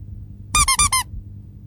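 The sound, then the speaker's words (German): Rubber duck squeaking in four quick, bright, harmonic squeaks packed into a short burst, standing alone over a low background rumble. “Es wird eine Quietscheente, das gab es noch nie und das wird der Hammer”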